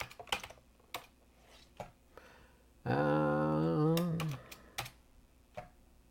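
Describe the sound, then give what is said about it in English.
Keystrokes clatter on a computer keyboard in irregular, sparse clicks. A sustained voice sounds briefly in the middle, and the typing continues around it. “Whoop, if I can type right.”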